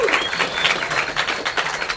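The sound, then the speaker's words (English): A studio audience claps and applauds to welcome a guest, a BYU basketball guard, onto a show. The applause is dense and steady, with many overlapping claps at an even loudness for the whole stretch. “Give it up for Kyle Collinsworth. Kyle Collinsworth is here, everybody.”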